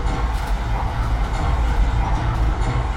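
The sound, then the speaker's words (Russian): A rail wagon carrying a huge running mechanism rolls in, a loud, steady low rumble of wheels and machinery that holds even throughout with no voices. “Входит вагон с огромным работающим механизмом.”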